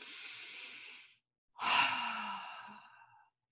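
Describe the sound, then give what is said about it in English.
A deep breath in is heard, then a pause and a longer, soft, sighing breath. Both are airy and quiet, with no talk. “Take a breath in.”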